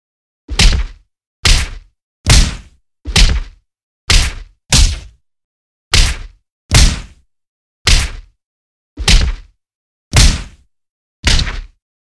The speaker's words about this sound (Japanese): まずはフックを打つように左右から連続で殴りつけていきますね。